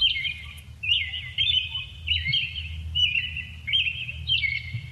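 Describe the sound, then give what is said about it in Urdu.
Small birds chirp in quick, bright twittering phrases that repeat many times in a steady rhythm over a low background rumble. “Twitter نے اپنے official account سے ایک audio tweet بھی کی ہے جس میں چڑیوں کے چہچہانے کی آوازیں ہیں۔”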